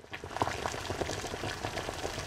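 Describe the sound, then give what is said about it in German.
Water boiling in a covered pot, a dense, steady bubbling and crackling that stays fairly even in loudness, with no voices. “Wasser kocht in einem Topf. Deckel drauf. Das Wasser sprudelt, es verdampft, kondensiert an der Deckelunterseite, perlt aus, tröpfelt zurück in den Topf.”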